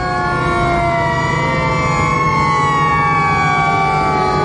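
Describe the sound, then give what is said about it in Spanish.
Police patrol car sirens wail continuously as the cars approach along a road lined with oil pumpjacks. Several overlapping tones sweep slowly in pitch, loud and steady throughout. “Los coches patrulla se acercan entre las extractoras de petróleo que jalonan el camino.”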